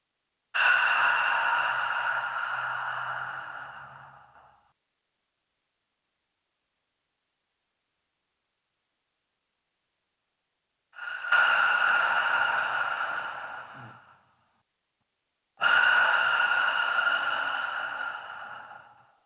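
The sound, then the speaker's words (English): Breathing exercise: three long, breathy exhalations pushed out through the mouth with a 'ha' sound after both nostrils are closed. Each lasts a few seconds and tapers off, with a long silent pause after the first and a short gap between the last two. “Close both nostrils, then expel the breath out through the mouth with a ha sound. So it's like this.”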